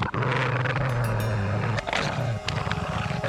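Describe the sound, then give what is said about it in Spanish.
Low, threatening animal growls heard in darkness, a sustained rumbling snarl that runs almost unbroken, dipping briefly before resuming rougher and lower. “dispuesto a comprobar si aquellos amenazantes gruñidos venían de la alforja donde había depositado al cachorro.”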